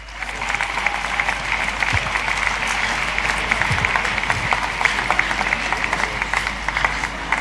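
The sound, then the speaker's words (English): Audience applause greets a guest invited up to join the host at a gathering of ministers, a dense, steady patter of many hands clapping evenly throughout. “Give Dr. Tete a big hand.”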